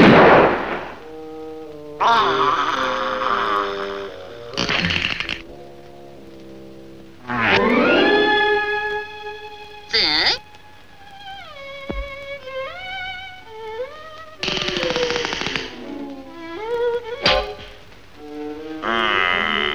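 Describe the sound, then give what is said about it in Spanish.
Cartoon gunshots ring out as a few sharp, loud bangs scattered among exaggerated, pitch-sliding cartoon voices and effects in a dubbed animated short. “¿Y si yo digo que me tiene que disparar ahora? Adelante, dispárame ahora.”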